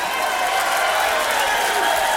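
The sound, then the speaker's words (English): Audience applause at a live blues concert: continuous, dense clapping mixed with cheering, steady and loud for the whole stretch. “I'd like for everybody to keep those round of applause together.”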